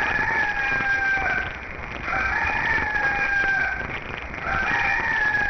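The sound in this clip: A rooster crows three times in succession. Each crow is a drawn-out, wavering call that falls away at the end, over a steady background hiss.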